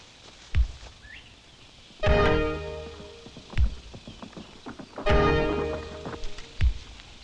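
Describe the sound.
Hooves of galloping horses thud and clop in uneven bursts, with a few heavy, ringing strikes recurring at roughly regular gaps and lighter clops between them.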